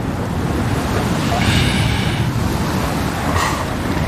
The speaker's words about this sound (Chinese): 再往西去，莫纳赫群岛同样承受着狂风的冲击